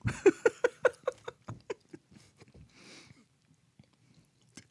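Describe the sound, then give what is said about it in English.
Someone chews food with a run of moist, rhythmic chomps, quick and fairly strong at first, then thinning into softer, sparser bites, with no talking. “Chew it up.”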